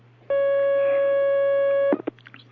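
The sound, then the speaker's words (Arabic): A telephone line connects for a call-in question, heard as one steady electronic tone lasting about one and a half seconds. A click and a few brief sounds follow. “معنا مكالمة الآن، تفضل.”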